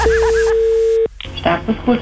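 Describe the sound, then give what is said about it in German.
A telephone ring in a radio studio: one steady, mid-pitched tone of about a second, with a voice over its start. The tone cuts off abruptly and people begin talking. “Das Telefon.”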